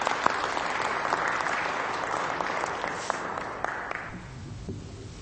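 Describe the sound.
An audience applauds to welcome a returning alumnus guest speaker at a ministry service, dense steady clapping that tapers off toward the end.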